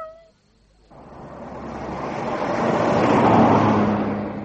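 A Lagonda car drives off along a country road, heard as a broad engine and road roar. It swells steadily louder toward the end after a brief quiet start, with no voices.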